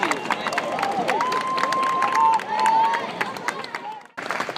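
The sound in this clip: An audience applauds and cheers for a reverend after a hymn, with a dense patter of many claps and crowd noise under a voice.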